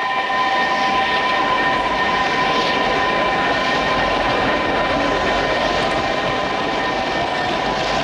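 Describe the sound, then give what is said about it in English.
A train arriving at a crowded station platform produces a loud, unbroken rumble with steady humming tones running through it, holding at an even level from start to finish. “Down the tracks, headlights loom large as a train arrives.”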